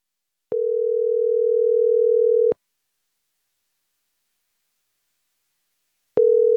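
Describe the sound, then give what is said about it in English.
A telephone line tone plays while calling someone back. A steady mid-pitched electronic tone holds for about two seconds, then about four seconds of silence, then the tone starts again at the end. No voices. “He hung up. Okay. Dial him back in.”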